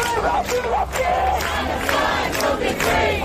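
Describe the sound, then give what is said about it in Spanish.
A protest crowd in London roars with many voices shouting and chanting together, a loud, continuous mass of sound with no pauses. “Así suena Londres ahora mismo.”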